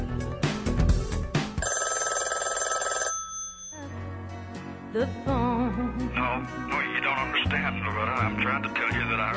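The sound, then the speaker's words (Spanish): A telephone ringing effect sounds within background music. Repeated bright electronic rings sit over a full, steady musical bed that continues after the ringing drops away. “es el efecto de teléfono que se escucha en este fondo musical”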